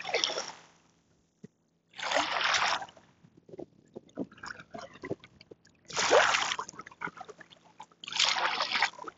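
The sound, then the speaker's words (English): Water splashing at a lake comes in several loud, rushing bursts, with quieter trickles, drips and small sloshes between them. “let me give you some really nice water noises.”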